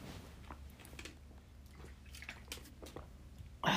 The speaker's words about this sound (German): Oh, aber der Nachgeschmack jetzt ist nicht so nice. Ich trinke einmal was.